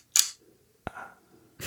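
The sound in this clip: Shutter clicks of a Brownie Hawkeye camera: a few sharp, short mechanical snaps spaced apart, each followed by a faint rattle, with quiet gaps between them.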